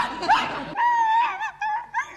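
A puppy whimpers and yaps: a high drawn-out whine, then a few short, sharp yelps, fairly loud and alone.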